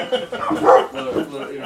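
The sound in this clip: A dog barks and yips in short, mid-pitched bursts, mixed with human talk across the brief moment.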